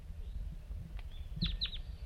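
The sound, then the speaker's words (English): Two brief, high chirps from a wild bird, faint and closely spaced, ring out over a low, rumbling background noise with no talking. “start recording the wild bird”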